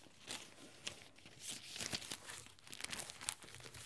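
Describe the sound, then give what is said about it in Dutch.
Paper crinkles and rustles as someone leafs through a paper folder of fan mail, with soft, irregular crackles and a few sharper crisp snaps throughout, faint and without speech. “We bladeren eerst nog even door haar map met fanmail”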